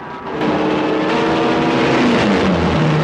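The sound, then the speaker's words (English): A burning plane plummets to the ground with a loud, continuous engine roar, a tone sliding downward in pitch toward the end. “His plane bursts into flames and plummets to the ground in a stream of thick black smoke.”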